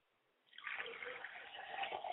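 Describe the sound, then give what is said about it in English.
Liquid is poured out as a libation during an ancestral ceremony. After a short quiet start, a steady splashing trickle begins and runs evenly to the end, with no voices. “look towards the east as we pour libation towards the east and we say, Ashe.”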